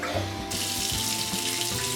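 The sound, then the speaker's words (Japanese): Shower water bursts on partway through and keeps running in a steady, even hiss to rinse hair after washing, over a faint low hum. “じゃ、流すね。シャワーちょうだい。 はい、出して。”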